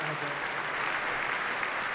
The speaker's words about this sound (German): vielen Dank für den Applaus